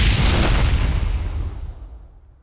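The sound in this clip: A single loud gunshot blast cracks out at once, then a heavy rumbling decay fades away steadily over about two seconds, with no voices.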